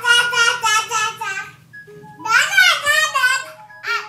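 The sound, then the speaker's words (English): Babies babble in high, sing-song voices, two bursts of lively, pitch-wavering syllables separated by a short pause, then a brief final utterance, loud and clear with no adult speech. “What makes this video special is that we have no clue what these babies are saying. To us non-babies, it sounds like gobbledygook. Cute, mysterious, gobbledygook.”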